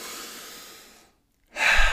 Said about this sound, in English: you get to come back to the moment and you get to take six deep breaths.